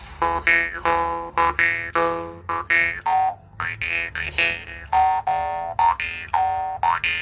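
A jaw harp twangs in a steady rhythm of many short plucked notes, each one a bright, buzzing tone whose overtones shift and bend as the mouth reshapes the sound, played alone without talk.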